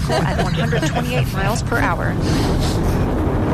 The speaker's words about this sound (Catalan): Cap amunt. Està enlairant, eh? Sí que està enlairant, sí.